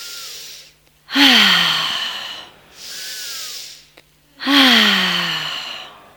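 Breathing done as a lovemaking exercise: loud, voiced sighing exhales with a falling hum alternate with softer, airy inhales in a slow, even rhythm, with no talk over it.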